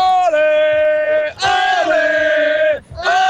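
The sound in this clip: A football fan of the Swiss national team yells passionately in long, drawn-out, tonal cries: two sustained shouts and the start of a third, each separated by a brief breath. The voice is loud and alone.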